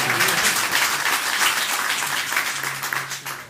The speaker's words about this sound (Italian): Un applauso a Giuliano